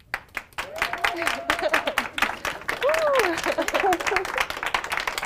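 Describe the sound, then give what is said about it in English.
Hospital colleagues cheer and clap after a cardiovascular ICU nurse at UC Health receives her COVID-19 vaccine shot. Dense, steady applause with whoops continues throughout, and a voice talks over it. “If Katie Walls had any hesitation, she didn't show it. And after she got the shot, her colleagues cheered.”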